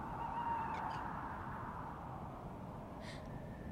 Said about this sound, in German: Was klagt die Eule so, Mami?